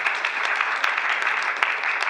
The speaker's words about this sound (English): Let's clap our hands. Bless the Lord.